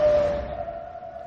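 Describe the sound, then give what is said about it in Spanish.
Ambulance siren passing at full speed on a Bucharest street in an action film, a single steady wailing tone that starts loud and gradually fades over about a second. “Sigue con la mirada a una ambulancia que pasa a toda velocidad.”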